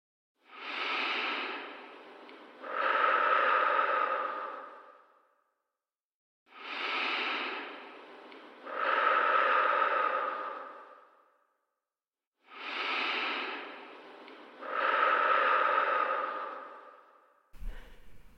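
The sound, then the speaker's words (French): Three slow, deep breaths taken during a guided relaxation exercise. Each one is a softer inhale followed by a longer, louder exhale, separated by silent pauses, and a brief click comes at the very end. “pour nous reconnecter à nous, je vous propose de commencer ensemble par trois grandes respirations.”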